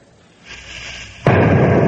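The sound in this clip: A rifle shot rings out at a charging rhino as one sudden, heavy blast. It follows a swelling rumble and gives way to a loud, sustained roar that carries on to the end.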